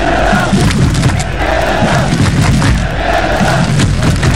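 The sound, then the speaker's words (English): Canadian football fans gather to march to BC Place for a World Cup home match, and the crowd roars and chants steadily. Rhythmic chanted phrases come over a constant wash of voices and low thuds. “That's the sound of Canadian fans gathering to march down to BC Place today.”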